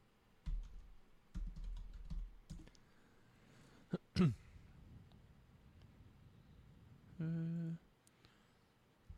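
Typing on a computer keyboard to look something up: several short bursts of clicky keystrokes, separated by pauses.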